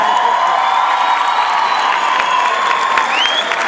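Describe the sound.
An audience applauds and cheers for a music group, a steady, loud wash of clapping and crowd noise with a rising whistle near the end.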